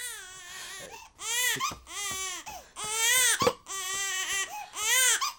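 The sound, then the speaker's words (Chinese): A baby cries in a high, wailing voice, in repeated long bursts broken by short breaths, staying loud and distressed throughout. “哦，乖乖乖，孩子都哭成这样了，你也不哄哄。 我一直在哄他，可是你走了之后，他就一直哭。”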